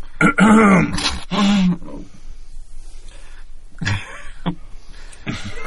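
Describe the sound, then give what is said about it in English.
A voice imitates a guard clearing his throat with two loud, gruff, rasping bursts in quick succession, followed by quieter throaty noises. “like he cleared his throat”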